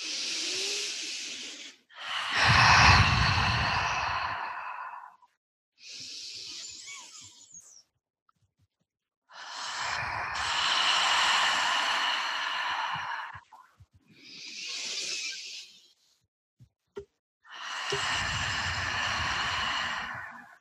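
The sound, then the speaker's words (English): Deep breathing in through the nose and out through the mouth during a guided breathwork session: three slow cycles of airy, rushing inhales and longer, fuller exhales, separated by short silences. “let's just take 3 deep breaths in through the nose and out through the mouth.”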